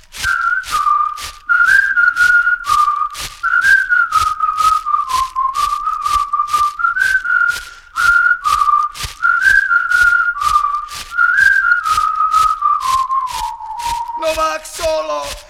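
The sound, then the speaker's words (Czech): People whistle a folk song's melody in short flowing phrases over a steady, even rhythmic beat from an accompanying instrument. Singing voices come in right at the end. “Pískat!”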